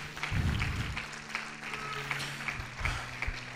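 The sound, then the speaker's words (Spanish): Applause from a church audience during a worship service: a short stretch of dense, steady clapping with no clear pauses. “Vamos a darle un aplauso al Señor con todo el corazón.”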